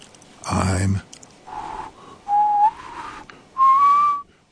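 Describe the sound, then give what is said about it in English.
A child whistles softly in a forest, practising gently: a breathy blow comes first, then a few thin, clear whistled notes, with the last two the steadiest and longest. “I'm whistling. I am. I whistle and whistle.”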